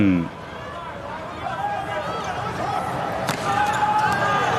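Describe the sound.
A volleyball serve lands a single sharp smack during a match at set point, under a steady crowd murmur and commentators talking.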